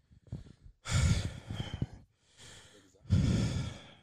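Heavy, out-of-breath breathing: a few loud, rough breaths, each a gusty burst, with short quiet gaps between them and a softer breath near the middle.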